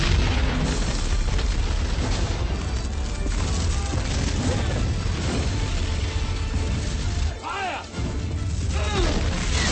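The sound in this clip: Weapon fire and explosions in a military shooter video game with artillery being called in, forming a dense, loud, continuous roar of booming blasts that briefly dips near the end before the barrage resumes.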